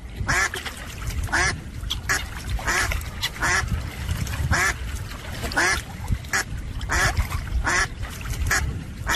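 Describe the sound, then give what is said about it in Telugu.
Ducks quacking in a loud, dense chorus of many overlapping quacks over a steady background noise, continuing without pause. “ఏమండి, బాతులు తెల్లగా అందంగా ఉన్నాయి కదండి.”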